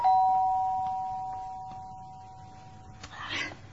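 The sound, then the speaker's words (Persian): A doorbell rings at a home's front door with a single bright electronic chime that fades slowly over a few seconds, followed by a brief soft rustle near the end. “این بار صدای زنگ باز مادر رو مجبور میکنه تمرین تمرکزش رو رها کنه.”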